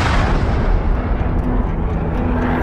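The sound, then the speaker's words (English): Rocket launch rumble, a deep, heavy roar that stays loud and continuous with a rough, crackling texture and no pauses from start to end. “A rocket launch.”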